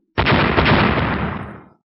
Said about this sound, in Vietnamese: Một tiếng nổ lớn vang lên, quang trụ kịch liệt vặn vẹo rung rẩy